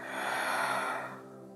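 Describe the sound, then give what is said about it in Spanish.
A deep exhalation through the mouth, one soft breathy whoosh that holds for about a second and then fades away, heard on its own. “Y vas a exhalar por tu boca todo el aire.”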